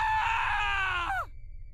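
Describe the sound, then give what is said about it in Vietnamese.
A woman lets out one sustained, piercing scream beside a bed. The cry holds a high, shrill pitch, then drops sharply as it breaks off, fairly faint overall. “Nhưng vừa bước đến bên thì một tiếng hét thất thanh vang lên.”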